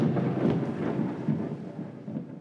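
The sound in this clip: A thunder sound effect in a tabletop role-playing game: a continuous low, rolling rumble with a few swelling surges, heard alone without talk.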